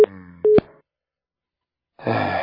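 A telephone busy tone sounds after a call is hung up: two short, steady beeps of one pitch, then silence.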